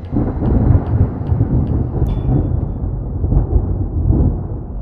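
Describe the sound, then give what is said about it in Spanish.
Deep rolling thunder from an approaching storm rumbles low and heavy for several seconds, swelling and ebbing continuously without a break. “Y parece que la tormenta no tardará en estallar.”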